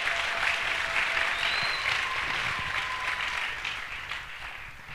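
Congregation applauding at a church service, a dense, steady wash of clapping that holds fairly even before easing slightly toward the end.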